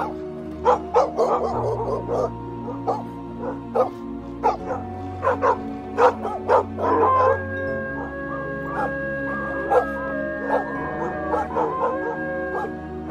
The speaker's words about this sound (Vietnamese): Đằng sau là tiếng của bầy chó cứ thế sủa lên như đang truy đuổi.